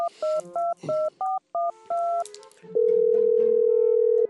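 A telephone call being placed: several quick two-tone keypad dialing beeps in an uneven rhythm, followed by a long, loud steady ringing tone.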